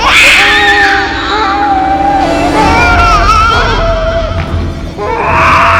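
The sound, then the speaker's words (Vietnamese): A child bursts into crying, loud wailing with wavering, sliding pitch that carries continuously for about six seconds with only a brief dip near the end. “Đứa trẻ đó dường như cũng phát hiện ra cô đang tìm nó. Nó liền khóc òa lên.”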